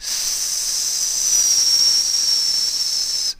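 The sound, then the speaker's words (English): A person holds a spoken hissing "s" consonant, a bright, steady, high hiss that stays even for about three seconds before cutting off sharply. “The s sound is not always made the same way by speakers.”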